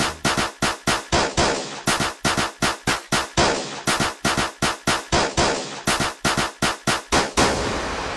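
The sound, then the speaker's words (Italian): Machine gun fire sound effect used as a phone ringtone: many loud, sharp rattling bursts in a fast, steady, repeating rhythm that runs the whole way through with no talking. “Potresti vincere la fantastica suoneria mitraglietta.”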